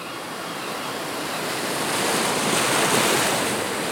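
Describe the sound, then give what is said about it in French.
Waves of the rising tide washing onto a warm sandy beach: a continuous broad rush of surf that swells louder through the second half, with no voices. “Et le sable qui est chaud. La marée monte.”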